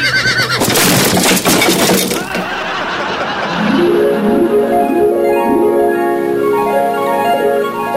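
Horses neighing as they are urged to charge at a door. A loud crashing burst opens, then several wavering, downward-sliding whinnies repeat one after another.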